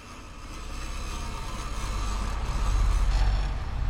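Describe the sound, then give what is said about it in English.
A car's engine rumbles low and steady, swelling gradually louder as the vehicle pulls off the road into a parking lot, with no voices. “I'm gonna pull this thing off the side of the road.”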